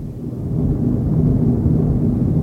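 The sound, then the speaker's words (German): Deep machinery rumble from the steel engine rooms of the Titanic running at full speed ahead: a dense, steady low roar that holds constant throughout with no break. “In den stählernen Katakomben der Titanic rollt der Donner der Maschinen.”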